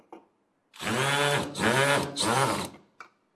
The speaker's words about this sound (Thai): เสร็จแล้วเรามาร์กเกอร์เข้าไปในตำแหน่งที่เราต้องการนะครับแล้วก็ยิงสกรูไลเข้าไป